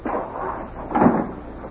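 A house door is pulled shut with a single dull thud over a steady background rumble.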